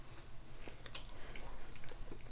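Someone bites into and chews pizza crust, giving faint crunchy crackles and soft wet mouth clicks scattered irregularly, with no talking.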